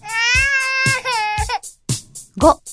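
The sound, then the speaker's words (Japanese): A baby cries in three long, high wails separated by breaths, then breaks into shorter, choppy sobs. “Cry. 泣く。”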